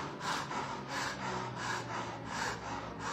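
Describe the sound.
A voice imitates heavy panting, like a person with a swollen belly close to losing consciousness: a steady run of loud, rhythmic, breathy gasps, in and out, with no words between them.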